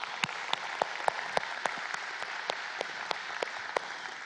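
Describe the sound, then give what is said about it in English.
Congregation applauding during a church gathering, heard as a steady series of crisp, evenly spaced claps in a regular rhythm over a quiet background rather than a full dense ovation. “For those of you who are in the room, would you please give our online and television audience a big hand?”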